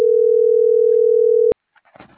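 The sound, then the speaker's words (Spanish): Telephone dial tone heard while placing a call: one steady, loud, unbroken tone lasting about one and a half seconds that cuts off abruptly, followed by brief faint sounds. “Sí, Tomás, es que ese sí sé que le voy a marcar.”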